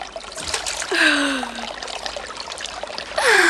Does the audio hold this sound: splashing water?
yes